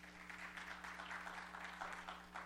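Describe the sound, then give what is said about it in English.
Applause from a church audience welcoming a family during a service: dense, steady clapping that holds at an even level through the whole stretch, with no voices rising above it. “Give them a big hand.”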